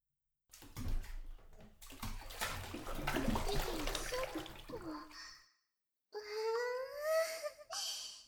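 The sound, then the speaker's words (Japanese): Water splashes and sloshes as people wash and climb into a bathtub big enough for three, making several seconds of continuous watery noise. After a brief silence, voice-like sounds follow. “これから私たちもしっかり洗って、みんなでお風呂入ろうか。”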